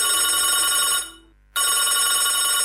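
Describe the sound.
Ringing tone on a phone call to an emergency number: a continuous bright electronic ring with dense high harmonics, broken by one brief silent gap in the middle before resuming.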